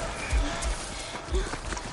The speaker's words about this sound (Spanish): Ella corre asustada. Continúa corriendo entre los árboles.